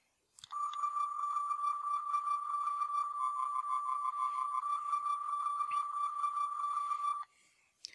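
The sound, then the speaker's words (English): A Star Trek tricorder sound effect: a steady, high electronic tone with a slight warble, held unbroken for about seven seconds and then cut off abruptly. “And if you guessed, like Hyperion and Scotty from the AFB forum did, that this was a Star Trek tricorder, you would be correct.”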